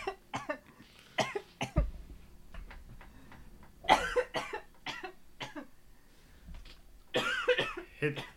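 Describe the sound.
Harsh, repeated coughing in several fits after a hard hit from a bong, bursts clustered unevenly with short pauses between them.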